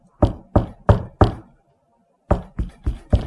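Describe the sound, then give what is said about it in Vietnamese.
Knocking on a bedroom door at night: four firm, evenly spaced knocks, a short silence, then four more in the same steady rhythm, loud and alone. “bà cứ nghe tiếng gõ cửa ngay chỗ cửa phòng của bà đó, cứ nghe gõ,”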